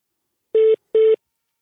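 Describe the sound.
Telephone keypad dialing a call: two short, identical electronic tone beeps in quick succession, clean and alone with silence around them.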